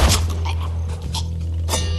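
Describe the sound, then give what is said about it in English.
An enemy shot in a bleak Western-themed video game bursts apart in blood, heard as a few sharp splattering bursts spread over two seconds above a steady low hum. “whenever you shoot someone, they just explode in blood, and it sounds like this.”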